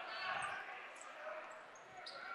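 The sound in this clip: During a basketball game, a player dribbles the ball across midcourt. The bounces are faint and rhythmic under a commentator's talk and the steady murmur of the court.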